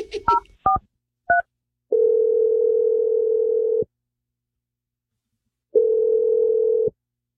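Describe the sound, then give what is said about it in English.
A few short touch-tone keypad beeps as a phone number is dialed, followed by two long, steady, mid-pitched telephone tones separated by silence. “I'm dialing Josh's number right now. Hopefully he picks up.”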